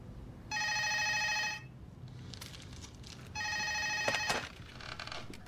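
A telephone rings late at night with two bright, buzzing trills about a second long each, separated by a pause with faint rustling.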